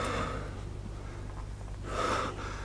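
Slow, heavy breathing from someone stifling in heat, with breaths drawn out over a low steady hum and a stronger breath swelling near the end.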